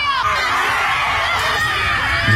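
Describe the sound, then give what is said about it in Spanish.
A group of people shouts and screams loudly and without pause during a forest ritual in which sticks are broken. Their voices overlap throughout. “Aquí los rituales. Mira, rompen palos. Gritan.”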